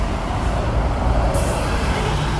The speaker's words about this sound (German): Unangenehmer Straßenlärm.